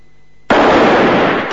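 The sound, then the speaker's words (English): Two gunshots fire at the same instant in a western showdown on a dusty street by a wooden sidewalk, merging into one sudden loud crack that gives way to a sustained, roaring tail. “Both men shoot at the same time, but it's Valance that falls to his knees.”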